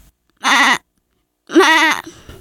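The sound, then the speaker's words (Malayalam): A goat bleats twice, loud and alone, with a silent gap between the calls; the second bleat is longer and wavers in pitch. “Aadu.”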